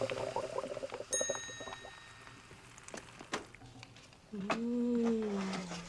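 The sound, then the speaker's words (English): The futuristic pizza hydrator from Back to the Future Part II sounds a bright, ringing ding, then a soft whooshing tone that sweeps slightly downward and sustains. The whole effect stays quiet and low in level. “Oh boy, Mom, you sure can hydrate a pizza.”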